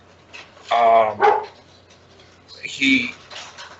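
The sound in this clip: A dog barks in a few short bursts, with a voice talking over the barking.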